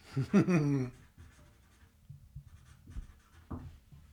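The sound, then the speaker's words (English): Pen scratching as someone writes an inscription in a book, faint soft strokes following a brief voiced sound at the start. “Writing a bit of a book.”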